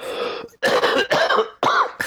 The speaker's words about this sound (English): I may or may not keep this coughing.